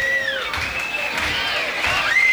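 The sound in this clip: A concert crowd murmurs and stirs while waiting for the band to return for an encore. The roar of voices is steady and continuous, and high whistle-like tones rise and fall above it.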